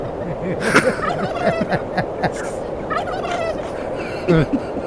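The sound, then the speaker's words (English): Turkeys gobble outdoors on a windy spot, many overlapping rattling gobbles and clucks coming in quick bursts over a steady wind noise. “As you can hear, we got some turkeys out here.”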